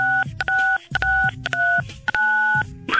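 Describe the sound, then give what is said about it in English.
Telephone keypad dialing tones: several steady two-pitch beeps in a regular rhythm, each a few tenths of a second long and separated by short gaps, as a caller keys in a code. “Okay, what do I do? Okay, dial 9-2-M-O-N-E-Y.”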